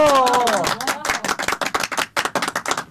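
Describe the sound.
Applause breaks out as a poet is called to the stage at a stage event: after a brief voice trails off, many sharp claps ring out in a dense, uneven patter that continues to the end.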